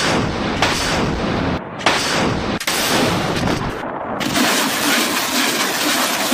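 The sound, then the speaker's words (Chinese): Rocket artillery firing a barrage, a continuous, loud roar of launch blasts with a couple of brief dips between volleys. “火箭炮刚刚完成火力覆盖”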